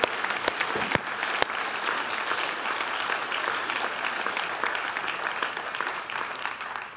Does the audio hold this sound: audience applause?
yes